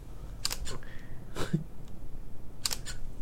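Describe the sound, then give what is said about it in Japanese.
Camera shutter clicks while fresh cream doughnuts are being photographed, a few short, crisp mechanical snaps spread across the moment, some in quick pairs, over a low steady background hiss. “もうちょっと写真撮っちゃおうかな。”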